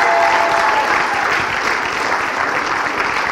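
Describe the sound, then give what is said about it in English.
A church audience applauds with dense, steady clapping that stays loud and even for a few seconds. “Why don't we give Resonate a hand? They're back here.”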